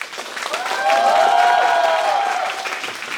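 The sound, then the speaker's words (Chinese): A live audience applauds to welcome the hosts of a talk show, the clapping swelling to a loud peak soon after the start, holding, then easing slightly near the end. “今天掌声有请我们几位主播好不好”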